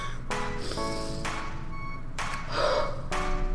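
Deep breaths drawn in and let out, a few breathy gasp-like inhales spaced at a steady rhythm, fairly soft and with no talking over them.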